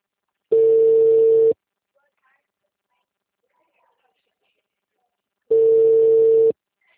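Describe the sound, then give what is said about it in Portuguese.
A telephone ringback tone while a call is being placed: two steady mid-pitched tones, each about a second long, separated by roughly four seconds of silence. “Ah, agora tá chamando”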